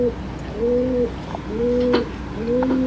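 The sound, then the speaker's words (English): A pigeon coos outside a window: a series of low, hollow, rounded coos repeating at a steady, unhurried pace, each swelling briefly before fading, with no voices over them. “And there's a pigeon outside my window. I don't know if you can hear that or not.”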